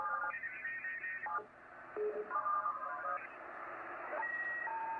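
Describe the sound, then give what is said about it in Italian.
Shortwave radio carrying a PSK31 digital transmission: steady electronic tones that hold, break off and step to new pitches over a bed of hiss, with the signal fading in and out. “Questo è un protocollo che si chiama PSK31. Se n'è andato, sta andando,”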